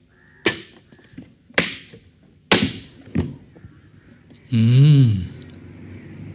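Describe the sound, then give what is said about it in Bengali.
Opening a window produces a series of sharp wooden thunks, three strong and one softer, followed by a loud, wavering creak that warbles for under a second before quiet returns. “জানালাটাই খুলি”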